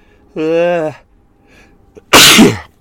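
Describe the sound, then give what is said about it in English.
A single loud sneeze from a light-sensitive man, preceded by a drawn-out voiced intake and a brief pause, then a sharp, breathy burst. “I'm going to sneeze.”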